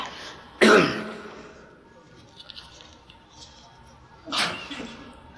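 A sharp, loud sneeze bursts out during a religious lesson, then the room falls quiet until a second, softer burst of similar shape arrives a few seconds later.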